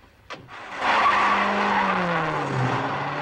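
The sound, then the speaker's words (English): Tires skid and squeal as a yellow taxi cab reverses rapidly outside a stadium. A short thump comes first, then a loud, sustained screech with engine roar that continues to the end and dips slightly in pitch near the close. “Spotting the three approaching, he jumps into his cab, reversing rapidly.”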